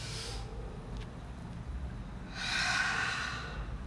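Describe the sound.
Deep breathing: a soft, airy inhale, a quiet pause, then a longer and slightly louder breathy exhale, faint and alone without talk.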